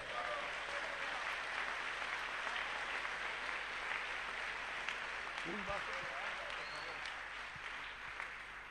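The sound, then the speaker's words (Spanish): Congregation applauding in a church, sustained dense clapping from many hands that carries on steadily, with voices audible within it. “Un aplauso para nuestro Dios.”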